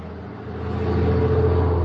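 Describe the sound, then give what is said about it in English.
A car engine hums low and steady as the vehicle drives off, swelling slightly louder over the two seconds. “That was interesting. Somebody just drove away.”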